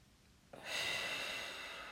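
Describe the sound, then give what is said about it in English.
A deep breath drawn in, starting after half a second of quiet as a long, steady, airy hiss that stays fairly loud to the end, with no voices. “Keep breathing in and out for me. In.”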